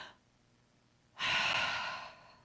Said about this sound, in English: Let's take a deep breath.